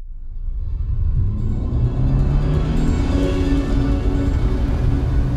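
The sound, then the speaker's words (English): Car driving fast along a winding dirt road, heard as a loud, continuous low rumble with a steady engine drone that holds for the whole stretch. “I'm driving fast. My eyes are pinned to an ever-winding dirt road.”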